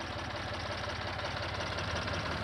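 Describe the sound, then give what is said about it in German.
A tractor engine runs at a steady idle, a low rumble with a fast, regular knocking pulse throughout and no talk. “Bringst du gleich den Trecker nach Hause?”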